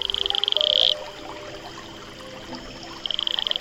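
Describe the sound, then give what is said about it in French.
High, rapid pulsed trill of an Atelopus franciscus toad, a smooth-skinned brown toad. One loud burst swells over the first second, then a quieter second burst starts near the end over a soft background. “Aujourd'hui, le crapaud Atelopus franciscus.”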